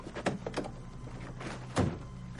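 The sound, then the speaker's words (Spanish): A car boot closes with a single dull thunk after a whisky bottle is taken out. A few faint knocks and rustles come before it, and the whole clip is quiet. “Vincent coge una botella de whisky del maletero y lo cierra.”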